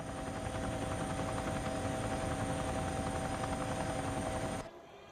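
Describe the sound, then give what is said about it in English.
A helicopter flying over the sea gives a loud, steady rotor thrum with an engine whine, unbroken until it cuts off abruptly near the end. “The chopper pilot searches the water below him.”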